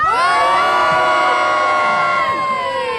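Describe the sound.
A large crowd cheers and shouts at a live public gathering in Norway, with many voices whooping and yelling together in a loud, continuous roar that holds steady throughout.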